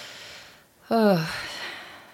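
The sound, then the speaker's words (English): A deep breath taken mid-conversation: a long, soft, hissing inhale builds up, then a short voiced exhale drops in pitch and trails off into quiet breath noise. “deep breath”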